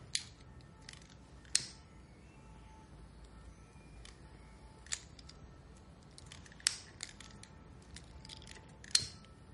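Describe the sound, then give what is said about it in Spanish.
A cigarette lighter is flicked on and off, giving several sharp, isolated metallic clicks spaced irregularly over a very quiet background. “Enciende y apaga el mechero.”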